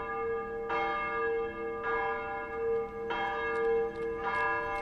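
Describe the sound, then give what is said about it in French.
Church bell tolling a death knell in Montreal for victims of a smallpox epidemic: four slow, evenly spaced strikes, each a rich metallic clang whose ringing hum carries on into the next. “À la fin du mois des morts, on sonne encore le glas pour ceux que l'épidémie a emportés.”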